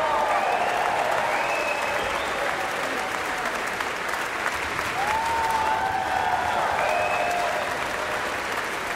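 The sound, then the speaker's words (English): A concert audience applauding and cheering an orchestra and its conductor after a symphony performance: a sustained, dense roar of clapping with whistles and shouts rising above it, steady and loud throughout. “Cheers continue as Yannick returns for another bow and asks the principal players and whole sections of the orchestra to stand in turn to absorb the huge appreciation from the audience.”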